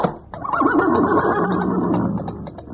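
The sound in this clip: A horse neighs in one long, loud, quavering whinny that holds for over two seconds, trembling throughout and gradually easing off at the end.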